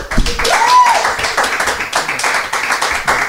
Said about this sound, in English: Does anyone have one they want to come up here? You, sir, come on up. Yeah. Give him a hand.